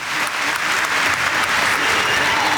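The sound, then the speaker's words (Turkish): Loud, continuous applause from an audience at an award ceremony honouring the president, a dense steady clatter of clapping hands with no talk over it. “Recep Tayyip Erdoğan'a teşekkürlerimizi sunuyor ve Sayın Cumhurbaşkanımızı saygılarımızla, kuvvetli alkışlarımızla uğurluyoruz.”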